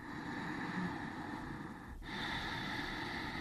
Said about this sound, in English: one example is of a pranayama you might do in a yoga class is called ujjayi breath, which is, in fact, I can do it right here into the microphone so people can hear. It goes like this.